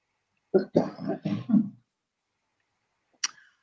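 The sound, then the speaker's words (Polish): Throat clearing, several short rough voiced bursts in quick succession, followed after a pause of about a second by one brief, sharper burst. “Przepraszam, muszę odkasnąć.”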